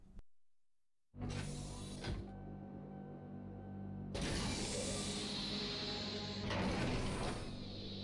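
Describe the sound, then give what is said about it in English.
An elevator mechanism in a small lift inside a very large tower starts up after a button push. A sharp click is followed by a whirring, creaking mechanical drone with steady hum tones, which swells louder and grinds on continuously. “But inside is a what looks like a small elevator or terminal. I'm gonna push that button.”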